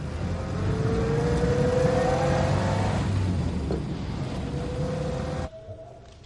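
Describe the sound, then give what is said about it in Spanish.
An ambulance engine drives off, a steady motor drone with a faint tonal whine that builds and then eases. Low road rumble runs underneath until the sound cuts away abruptly near the end. “Meten a Pepe en una ambulancia con los ojos vendados. El vehículo avanza.”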